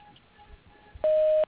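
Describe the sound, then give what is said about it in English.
A voicemail tone before a message is left: one short, steady, mid-high beep of under half a second, rising clearly out of faint background hiss. “You have reached the voicemail box for Javier Valdez. Please leave your message and tone.”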